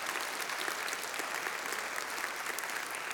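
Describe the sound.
A church audience at Harmony Hill claps to welcome new members: steady, dense applause throughout, fairly faint and even, with no talk over it.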